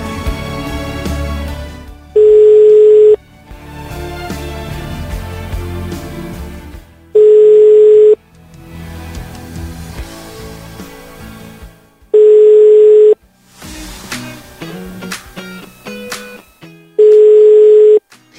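An unanswered telephone line rings out during a live radio call: four steady, evenly spaced ringback tones, each about a second long, separated by longer stretches of louder programme sound.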